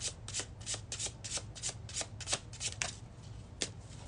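Tarot cards being shuffled to draw a card: many quick, papery riffling bursts in an uneven rhythm, fairly faint, with no voices.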